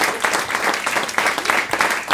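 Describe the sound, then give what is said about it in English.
An audience applauds with steady clapping from many hands, moderately loud and continuous throughout, with no voices standing out. “Another round of applause for Shannon.”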